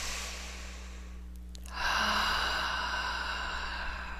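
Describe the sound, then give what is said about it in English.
Deep breathing in through the nose and out through the mouth during a guided breathing exercise: a quiet opening, then a long, steady, breathy rush that starts partway through and continues to the end, with no talk. “So let's take some nice deep breaths in through the nose and out through the mouth.”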